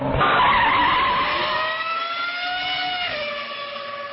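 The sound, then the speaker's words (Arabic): Racing cars skid with loud, sustained tire screeches over engine roar in a mobile racing video game. The squeal holds steady, dips slightly in pitch near the end, and fades a little. “لو غاوي سباق ولو بتحب التحدي يلا حمل لعبة نيد فور سبيد على تليفونك المحمول”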